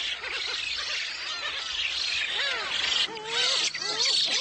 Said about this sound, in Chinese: 新生雏鸟们吵得不可开交。